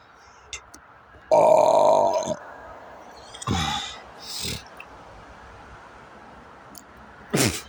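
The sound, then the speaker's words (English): Burping with hiccups: a long loud croaking belch, then a few shorter, fainter burps spaced out over several seconds, with one more abrupt burp near the end. “Burping like crazy. And I got the hiccups. It's crazy. I got hiccup burps.”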